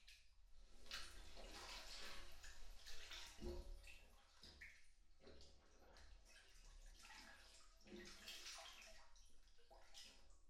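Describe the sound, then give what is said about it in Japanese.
Hot bath water sloshes and swirls as someone sits down into the tub. The soft, continuous swishing is broken by a few fuller splashes and gurgles, with no voices present. “ほら、座ってお湯に浸かってみて。”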